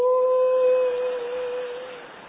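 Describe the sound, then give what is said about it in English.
A human voice imitates a dog howling, holding one long, steady, mid-pitched note that slowly fades away. “and my dog would go,”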